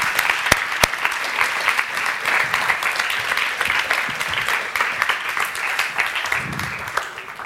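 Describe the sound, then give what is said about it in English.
Audience applause at a church community gathering: dense, continuous clapping that stays loud throughout, with a few sharper individual claps standing out. “Thank you guys so much. I really appreciate it. Give them a hand.”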